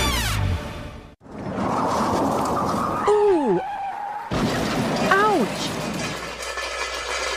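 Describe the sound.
Car tires skidding in a crash, with two high squealing screeches whose pitch bends and swoops, set in loud broad rushing noise that cuts out abruptly and then resumes.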